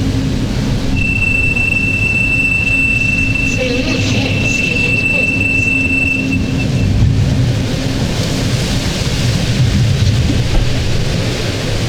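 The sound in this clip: Metro train riding through a tunnel in Santiago, Chile, a loud continuous rumbling roar with a thin, steady high squeal from the wheels ringing for several seconds midway before fading into the dense rattle.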